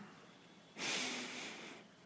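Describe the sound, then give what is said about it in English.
A single deep breath drawn in during a guided relaxation exercise, a soft, steady airy inhale lasting about a second after a quiet pause, faint and alone. “Breathe in and out. Tighten your chest now by taking a deep breath in.”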